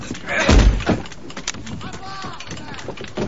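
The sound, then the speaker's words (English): A ship's cannon is lowered into place with one heavy, deep thud, followed by a few lighter knocks, while voices talk over the scene. “Larboard battery, unship your rear wheels. Pullings helps to lower a cannon into place. Drop the gun!”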